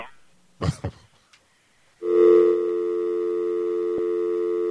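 Telephone line tone after the other party has hung up: a steady, buzzing, electronic tone that starts abruptly after a few brief handling clicks and holds unbroken at an even level to the end.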